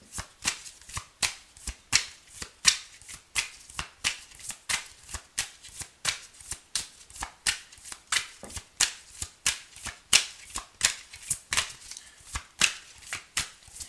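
Tarot cards being shuffled in a long, even run of crisp riffling bursts, about two per second, steady in loudness throughout with no talk.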